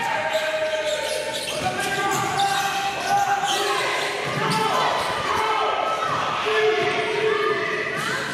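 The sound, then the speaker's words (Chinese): Basketballs bounce repeatedly as a girls' basketball team drills passing, dribbling and shooting at practice in the Philippines. Many ball impacts keep up a steady rhythm over dense, busy court noise. “普门女篮随即展开训练，从端抛、体能到篮球基本功，球员在场上反复练习传球、运球与投篮，也在高强度训练中熟悉彼此的节奏。”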